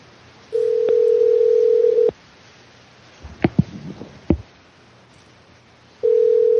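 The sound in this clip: A telephone dial tone sounds as a call is placed: a steady, low, humming tone held for about a second and a half. It is followed by a pause, a few faint clicks and handling noises, and then the same tone returns.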